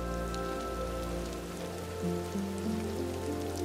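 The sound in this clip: Steady rain falls in an even, unbroken hiss over low sustained tones.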